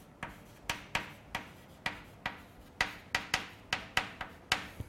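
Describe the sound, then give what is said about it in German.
Writing on a board during a lecture: many short, sharp scratching strokes and taps follow one another in an uneven but steady rhythm, fairly faint with no voices. “Wo schreiben wir das hin? Schreibe ich hier hin.”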